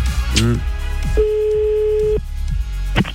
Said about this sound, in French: on t'appelle maintenant pour te doubler ton salaire. Bar-le-Duc, dans la Meuse. Décroche ce téléphone, s'il te plaît.